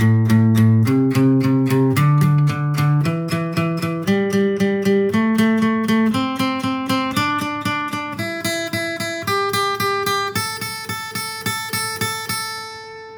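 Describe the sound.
Guitar flat-picked in bluegrass style with alternating down-up strokes. Each note is struck four times in even, bright plucks as a scale climbs steadily in pitch, played alone.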